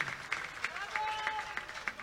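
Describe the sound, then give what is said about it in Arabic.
Audience applause for a ship's crew: faint, steady, rhythmic clapping that repeats at an even pace throughout, with low background noise. “بالله يا جماعة الناس الكل تصفيقة يد واحدة للإكيباج الكل بتاع باخرة التالي.”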